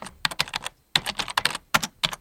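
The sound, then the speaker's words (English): Keys clatter rapidly on a computer keyboard in quick, uneven bursts of clicks as a search is typed. One short pause breaks the run before the fast typing resumes. “Type in Lumina minivan.”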